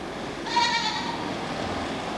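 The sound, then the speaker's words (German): Goats bleat: one short, nasal, wavering bleat stands out over a steady hiss, and the hiss then continues alone. “Was war denn das? Das müssen Ziegen sein.”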